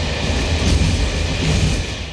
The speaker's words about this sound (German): Heute Morgen im Zug, kurz vor Meißen.